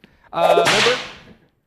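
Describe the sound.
A whip crack sound effect: one sharp crack that trails off into a fading hiss.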